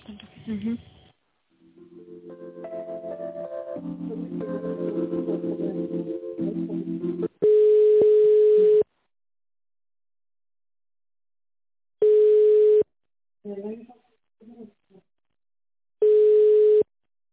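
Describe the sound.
Telephone line tones sound while a call is transferred to an accountant: a brief melodic hold tune, then three long, steady beeps spaced several seconds apart. Short bits of speech come before and between the beeps.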